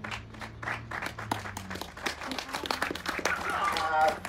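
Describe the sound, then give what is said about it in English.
An audience claps at a launch event: scattered, uneven claps that grow fuller toward the end, while a voice keeps talking over them. “Clap. I'm just telling you to clap.”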